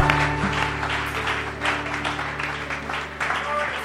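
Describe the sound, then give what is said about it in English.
Applause welcomes a reverend to the stage at a Christian prayer gathering: steady, moderately loud clapping with swelling surges, while sustained low musical tones hold underneath throughout. “Put your hand together and let's welcome Reverend Betty.”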